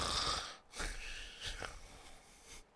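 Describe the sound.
A voice imitating snoring, with faint, breathy rasping snorts and drawn inhales repeated a few times.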